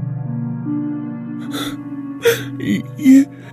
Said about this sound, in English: She struggled through her sobbing.